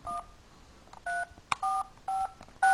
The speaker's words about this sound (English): So let's go ahead and dial up the movie information hotline.